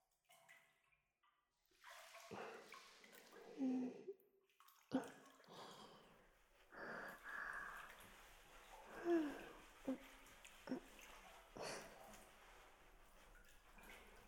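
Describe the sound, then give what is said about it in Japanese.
Soft splashes and wet rubbing in a bath as someone's back is scrubbed. Quiet sloshing strokes and drips come and go throughout. “それじゃあ、また背中洗ってくね。”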